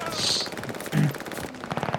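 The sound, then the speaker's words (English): Video game gunfire from a slow-firing gun: a few separated shots with sharp bursts, spaced unevenly across two seconds, loud over a busy game soundscape with a voice talking. “Ooh, this is a very slow-firing gun.”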